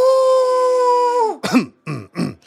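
A cough from someone with discount cheese stuck in the throat: a held droning vocal tone drops away, then a few harsh, choking coughs burst out in quick succession.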